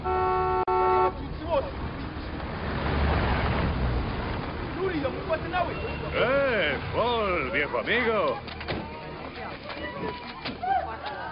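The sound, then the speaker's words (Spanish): Several military vehicles drive in, with a horn-like toot at the start and a broad engine rumble, while many voices rise and fall in loud cries over the noise. “Entran varios coches militares.”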